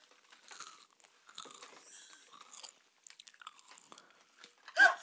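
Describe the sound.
Crisp crunching and biting into a hippo-shaped snack: many sharp, dry crunches in scattered bursts with quiet gaps between them, ending in the loudest bites.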